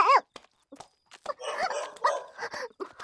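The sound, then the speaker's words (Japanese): A dog barking during a late-night walk: several short, sharp barks and higher yips with a slight whimpering quality, coming in irregular bursts separated by brief pauses. “こんな時間にワンちゃんのお散歩なんて。”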